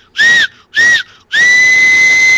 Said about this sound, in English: the engine drivers would pull the whistle cord, and he'd hear that